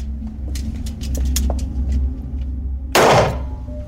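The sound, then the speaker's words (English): A gunshot fired into a cotton twill target in a close-range firing test: a single sharp, loud burst with a short decay over a steady low rumble. “fires into targets made of twill cotton that represent a close approximation of a person's skin. Several shots are fired at distances from 1 to 18 inches.”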